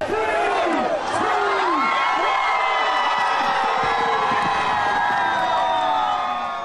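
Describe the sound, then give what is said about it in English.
Crowd cheering and whooping as the New Year arrives in Melbourne, Australia. The dense, sustained roar of many voices is laced with high whistling tones that sweep downward early on, and it stays loud throughout. “Here's the sound of the new year arriving in Melbourne, Australia.”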